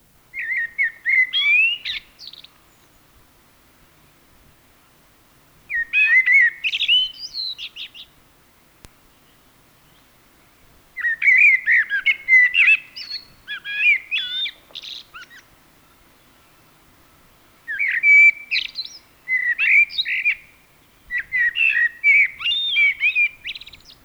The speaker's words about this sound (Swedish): nu följer koltrast.